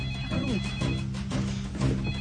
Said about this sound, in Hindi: Rahul call आ रहा है। Call कर रहा है। काट दे यार।